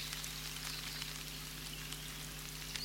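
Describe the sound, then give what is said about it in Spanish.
Rain from a storm patters onto the surface of a pond, countless tiny drops blending into a dense, steady hiss that stays even and fairly faint throughout, with a low constant hum underneath. “me sorprendió una tormenta lluviosa. Noté que la superficie del estanque era bombardeada por miles de minúsculas gotas de lluvia.”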